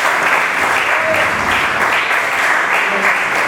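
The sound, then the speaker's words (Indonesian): Audience at a book discussion event applauding, a loud, thick wash of clapping held steady from start to end. “Oke, tepuk tangan dulu untuk Mas Ruben.”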